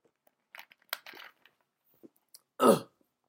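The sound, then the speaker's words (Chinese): A person drinking a sip of water makes a few faint clicks and soft rustles, then one short, louder gulp near the end, with quiet gaps in between. “不好意思，我喝口水啊，嗓子有点不行。”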